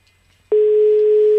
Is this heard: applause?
no